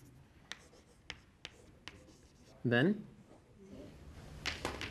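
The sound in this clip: Writing on a board while a search-tree diagram is drawn: several sharp, faint tapping strokes in a loose rhythm, a brief voice in the middle, then a burst of scratchy strokes at the end.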